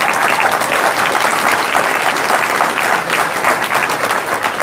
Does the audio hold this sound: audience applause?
yes